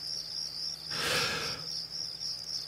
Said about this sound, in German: Und ich hole auch hier mal wieder unsere Grillen wieder hervor.